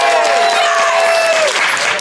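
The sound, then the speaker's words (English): Audience applause as a vote for one side in a debate game, a dense, steady clatter lasting about two seconds, with a voice calling out over it. “I would like you to applaud now.”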